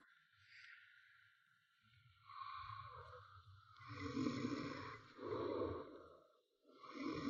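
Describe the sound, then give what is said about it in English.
A man snores while asleep in his room, giving rough, rasping snorts and breathy rattles that swell and fade over a few slow breaths, growing louder toward the end with no talk. “Sleeping Beauty. He's actually snoring right now.”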